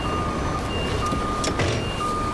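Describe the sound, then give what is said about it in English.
Reversing beeps from a lorry backing up on a farm during loading, a clear, high, repeating electronic tone pulsing steadily over a constant low engine rumble. “do you mind backing up so that that wagon can get through and go over there?”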